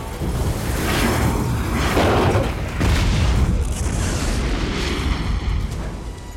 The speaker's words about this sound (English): An explosion rips through the building.